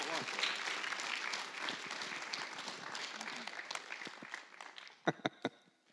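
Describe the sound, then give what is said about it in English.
A church audience applauds to welcome a pastor, with voices audible among the clapping. The dense applause gradually thins and fades, and a few sharp, louder claps stand out near the end. “Would you all put your hands together and welcome Pastor David Jones.”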